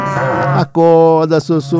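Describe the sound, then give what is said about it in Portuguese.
A berrante cattle horn sounds a few long, low, droning blasts, the first and longest wavering slightly before a short break, then steadier held tones cut into shorter bursts. “Toca o berrante pra Sossô.”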